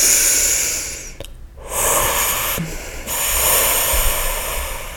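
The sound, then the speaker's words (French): Deep inhalation through the nose, a long airy hiss broken by short pauses, with no talking over it. “C'est-à-dire que vous allez inspirer par le nez.”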